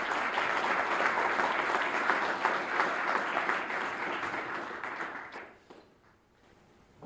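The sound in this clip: An audience applauds to welcome a speaker at a talk, dense clapping that holds strong for about five seconds before thinning and fading into near quiet.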